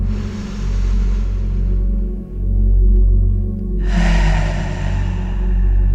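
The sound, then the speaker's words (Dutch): A deep breath is drawn in through the nose during a guided breathing exercise: a long, airy rush of air, a quiet pause, then a second breathy stretch. A constant low rumble runs underneath. “Doen we nog één keer diep in door je neus.”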